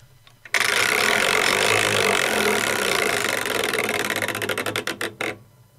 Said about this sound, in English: I think it's time for another wheel spin.